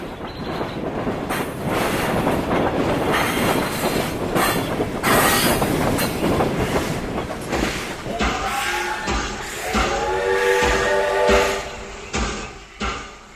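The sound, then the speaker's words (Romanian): A locomotive-hauled train slows on its rails with a steady, loud rumble and clatter of wheels, giving way in the later part to high, sustained squealing tones as it brakes. “Ai, parte de o locomotivă frumoasă.”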